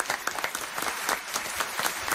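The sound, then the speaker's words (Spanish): Audience applause greets a young woman volunteer called up onto the stage from the fourth row, a dense, steady wash of clapping that holds at an even level for its whole short length. “Un aplauso para esta joven.”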